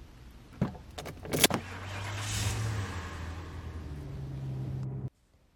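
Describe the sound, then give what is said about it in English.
A car, heard as a few sharp clicks and rattles near the start, then a quiet, steady low engine hum that runs for several seconds before cutting off abruptly. “This is my car. Make yourself comfortable. Get in, honey.”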